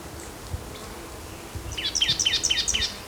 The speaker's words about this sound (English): Blackthorn gray warbler in the background.